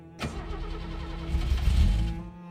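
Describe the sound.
A car engine cranks without starting, a rough, churning starter-motor rumble that begins abruptly, keeps grinding for about two seconds, then cuts off without catching.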